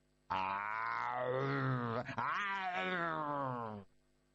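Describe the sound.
A human voice imitates tigers growling on a hillside in old forest. It gives one long, rough, harmonic-rich roar of about three and a half seconds, with a brief catch near the middle, alone and fairly loud.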